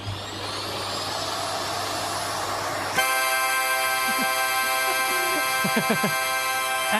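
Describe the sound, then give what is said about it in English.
A vacuum cleaner runs into a harmonica. A steady, hissing vacuum roar with a thin whine gives way abruptly to a loud, sustained reedy chord, and several short notes bend and slide over the held tones. “And is the wonderful moment when a vacuum cleaner meets a harmonica. Yes, it's just brilliant. It sounds like this.”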